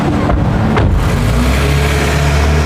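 A car driving off to follow another vehicle, a loud, continuous engine and road roar filling the whole clip without pause.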